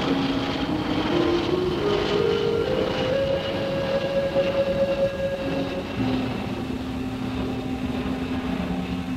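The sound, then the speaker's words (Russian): A passenger airliner flies overhead with a loud, steady roaring rumble. A droning tone climbs gradually, holds, then drops lower as the roar continues throughout. “Поднимает взгляд к небу. По нему пролетает пассажирский авиалайнер.”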